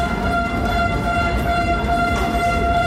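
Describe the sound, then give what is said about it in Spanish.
Residents of Usansolo blow whistles in protest outside the Basque parliament, demanding a metro in the town centre: a continuous, shrill tonal blare over a dense, rumbling wash of crowd noise, loud and unbroken throughout. “Acompañado de todo su equipo de gobierno, lo que escuchan es la protesta de los vecinos de Usansolo para poder tener el metro en el centro de la localidad.”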